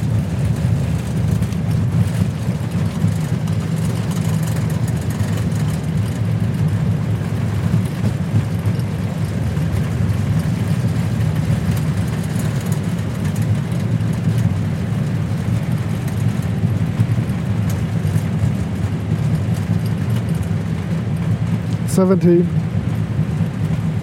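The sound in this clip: Steady, loud engine and airflow roar fills the cockpit of an Airbus A320 airliner as it lands, an unbroken noise with voices over it and a brief knock near the end.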